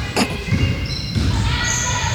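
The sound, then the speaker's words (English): A basketball is dribbled during a game, a few dull, low thumps of the ball bouncing under people talking and a steady background murmur. “She takes a shot, and it's almost good. Retrieved by the dribblers.”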